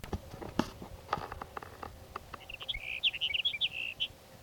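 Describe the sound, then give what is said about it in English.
Sage sparrow song: a quick run of high, thin chirps and trills, preceded by faint scattered clicks and rustling. “Your sage sparrow number three for the morning.”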